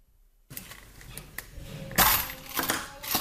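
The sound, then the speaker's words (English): Coins rattle inside a plastic Play-Doh container as it is shaken, giving irregular clattering bursts with a few sharper, louder jolts. No one speaks. “woo, it's coins. What was it? Coins. Coins.”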